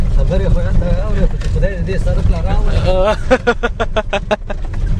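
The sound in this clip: A vehicle drives along the bad, rough road to Kunar. A droning engine and a bumpy rattle build into rapid, jolting clatter toward the end, with people talking throughout.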